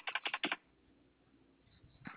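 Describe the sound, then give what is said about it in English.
Typing on a computer keyboard: a quick burst of several sharp keystrokes, then a quiet pause before one more soft tap. “Oh, I cannot type today.”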